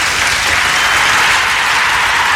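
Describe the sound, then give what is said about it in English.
Dense, steady applause, a round of clapping for night workers, continuous and loud for the whole stretch with no voices rising above it. “Got to give him a round of applause, man, I tell you.”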